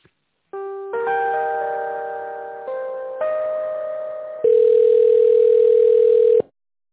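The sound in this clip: Electronic telephone line tones while a call is transferred: steady synthetic tones step through a few different pitches, then a louder sustained single tone holds before cutting off abruptly, with no talking.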